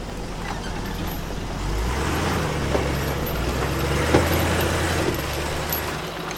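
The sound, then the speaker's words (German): A car drives up a lonely dirt road through forest in Brazil on a hot day, its engine a steady low rumble with a few faint knocks and rattles from the rough surface. “fahren wir eine einsame Lehmstraße hinauf, durch den Wald”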